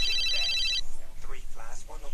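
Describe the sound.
A home telephone rings with a bright, rapid trilling bell for under a second, then stops as a voice begins talking over a low background.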